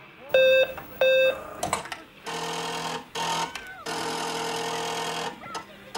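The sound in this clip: A radio-drama computer processing a request: two short, evenly pitched electronic beeps open, followed by several bursts of rapid mechanical whirring and chattering, the last burst sustained for almost two seconds.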